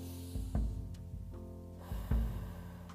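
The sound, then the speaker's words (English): A deep breath drawn in and released during a guided relaxation exercise, heard as two soft, low breathy swells over a steady tonal background. “I want you to take a big deep breath um, on the count of three. One, two, three.”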